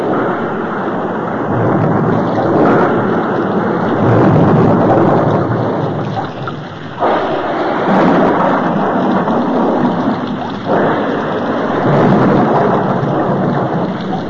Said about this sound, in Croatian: a bijeli oblak se nadvi i proli se obilna kiša.